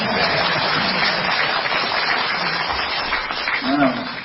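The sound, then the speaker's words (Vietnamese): Audience clapping at a Vietnamese Buddhist teaching session, a steady, fairly dense patter of applause, with voices rising over it near the end. “Chịu vỗ tay đi.”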